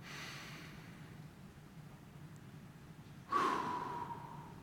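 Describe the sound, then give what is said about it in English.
Quiet breathing during a guided relaxation exercise: a soft, airy intake, a still pause, then a sudden breathy exhale that trails slowly away. No one speaks. “we're just going to breathe in for 4 seconds, hold our breath for a couple seconds, and then slowly exhale”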